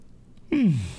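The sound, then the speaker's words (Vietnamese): A faint, single yawn from a person late at night before going to bed, voiced with a pitch that slides steadily downward, sounding alone after a short quiet stretch. “Ngáp.”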